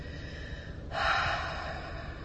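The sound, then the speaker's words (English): One breath exhaled through the mouth during a guided breathing exercise, a soft airy rush that begins abruptly and fades gradually over about a second. “Inhale through the nose. Feeling the air travel from the belly to the heart to the throat. And then exhale through the mouth.”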